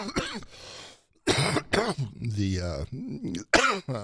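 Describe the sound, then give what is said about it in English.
Persistent, hard-to-shake coughing from a person, several short harsh bursts alternating with stretches of talk. “Another human issue is that I can't get rid of this cough, and it just kind of comes up.”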